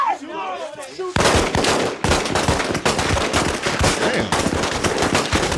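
Rapid gunfire from a TV show scene breaks in after about a second of quieter sound. Dense, loud bursts continue without a break to the end.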